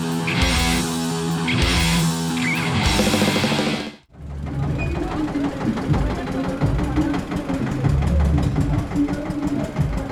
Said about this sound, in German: Ein ungewöhnliches Gefährt setzt sich in Gang. Ein Traktor.